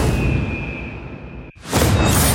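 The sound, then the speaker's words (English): A leap of faith attack sound effect from the video game Assassin's Creed Mirage, where a character drops onto a guard below. A sustained rushing whoosh carries a thin steady tone, cuts off abruptly, then a loud, broad crashing impact bursts in. “Bossum's widening shadow as he performs a leap of faith onto a guard just below. There's just something so satisfying about that sound effect.”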